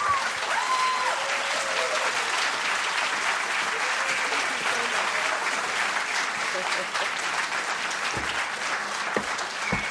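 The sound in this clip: An audience gives continuous, dense applause to welcome Senator Barbara Boxer to the stage. The clapping stays loud and even throughout, with a few voices rising through it.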